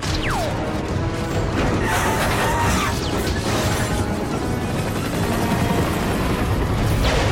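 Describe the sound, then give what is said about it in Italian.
Loud, dense crashing and rumbling noise of a helicopter out of control with a jammed throttle. It stays continuous throughout, with a brief falling whistle near the start. “L'elicottero mi è proprio sfuggito di mano. La manetta si è bloccata.”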